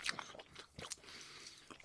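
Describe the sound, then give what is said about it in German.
Smacking and chewing while eating Kaiserschmarrn with vanilla ice cream: many small, wet mouth clicks and soft crunches in an irregular rhythm, fairly faint and heard without talk. “die Schmatzgeräusche sind Kaiserschmarrn und Vanilleeis.”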